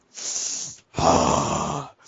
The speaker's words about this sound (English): Whoa. I'm gotta stop yawning.